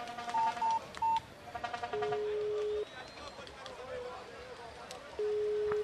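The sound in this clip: Telephone keypad tones as a number is dialed: a few separate beeps, then a quick run of short ones, followed by longer steady tones like a ringing line.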